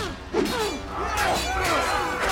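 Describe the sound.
A sudden shattering crash as a man is forced backwards through a lattice window on a palace balcony during a battle with soldiers, followed by ongoing clattering, breaking noise.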